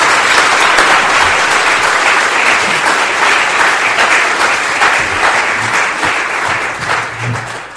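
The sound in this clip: Loud, sustained audience applause welcoming a guest speaker at an evening talk, dense and even clapping that carries on for several seconds and eases slightly near the end.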